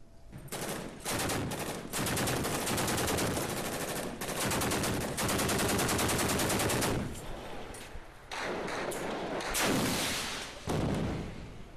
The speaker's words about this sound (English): as you can see in this amateur video, foreign-backed insurgents are using rocket launchers and bazookas in clashes with the Syrian army.